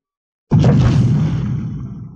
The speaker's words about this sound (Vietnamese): Trong hư không tiếng nổ mạnh vang lên